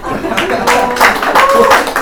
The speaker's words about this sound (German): Einen Sonderapplaus.